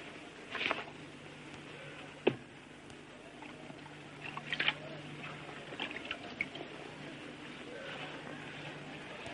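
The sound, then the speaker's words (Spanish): Hands dip into a bowl of rose water, making a few faint, brief splashes and drips that are spaced apart over a quiet background. “moja las manos en el recipiente y se atusa el pelo.”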